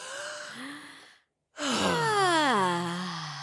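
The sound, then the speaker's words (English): Deep ASMR breathing: two long, breathy voiced sighs split by a short silent gap, the second exhale sliding downward in pitch as it fades. “Here's the breath part. ASMR. This is your weekly reminder to take a deep breath.”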